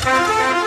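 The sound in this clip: A motorcycle horn gives one short, loud, steady honk, a bright buzzing tone held for under a second with no other sound.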